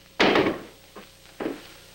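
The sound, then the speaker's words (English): A chair kicked aside from someone's path: a loud hollow thunk, then a softer knock and a final thud, each short and abrupt. “Tori swaggers out, kicking a chair from his path”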